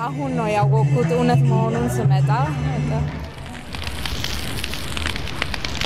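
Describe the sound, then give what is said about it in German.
A tall wooden pile wrapped in white cloth goes up in flames in the middle of a square during a celebration. Voices come first, then a steady crackling, hissing roar of fire carries on to the end. “In der Mitte des Platzes geht ein hoher, mit weißem Tuch umwickelter Holzstoß in Flammen auf.”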